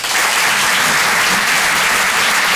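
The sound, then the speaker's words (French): Dense, steady applause from a theatre audience at a live comedy show at the Apollo Théâtre in Paris, greeting a comedian as he comes on. The clapping is loud and unbroken, with no voices over it. “En direct de l'Apollo Théâtre à Paris et en direct sur une chanson. Rire et chanson. Faites du bruit s'il vous plaît pour Alexis Tramoni.”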